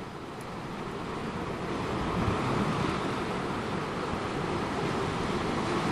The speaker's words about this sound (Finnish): Ja minkälaista se, kun koko ajan taustalla kuuluu ikuisen meren pauhu? Silloinkin, kun on tyyntä. Vanhat mainingit lyövät usein silloinkin rantaan. Uuttöön eteläkärjessä se kuulostaa tältä.